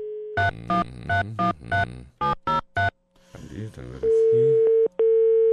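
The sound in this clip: Telephone tones while placing a call: a series of about eight short, evenly spaced electronic beeps, a brief stretch of talk, then a loud steady tone that breaks off once before resuming.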